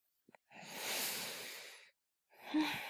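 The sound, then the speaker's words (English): A slow, deep breath taken for calm: a couple of faint clicks, then a long soft inhale of over a second, a brief pause, and the start of a breathy exhale, heard alone. “And just take a deep breath and just.”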